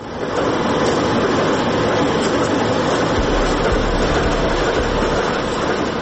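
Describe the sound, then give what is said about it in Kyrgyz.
A freight train at the railway station in Kant, come to haul coal for the city's cement plant, gives a loud, dense rumbling roar that holds steady throughout. No voices are heard. “Кант шаарындагы темир жол бекетине поезддер тынымсыз келип келет.”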